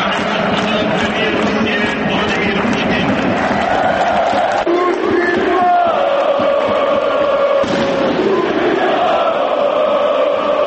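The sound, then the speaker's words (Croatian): Football crowd at Marakana stadium during a Zenit vs Crvena zvezda match, roaring and chanting as they greet a visiting Russian president. The loud, continuous wall of voices carries sustained, pitched chanting. “Navijači su burno pozdravili ruskog predsjednika i otpevali mu Kaćušu, ali i najavili političku sudbinu Borisu Tadiću.”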